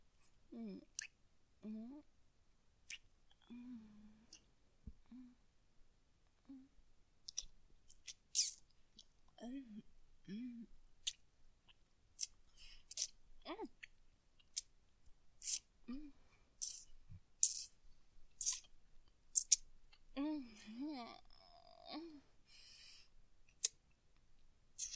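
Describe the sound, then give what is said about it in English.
Soft, wet mouth and lip sounds made on fingers to imitate oral sex: many faint, irregular sucks, smacks and clicks, with occasional murmured vocal sounds. “It sounds like this. I'm just gonna show you on my fingers,”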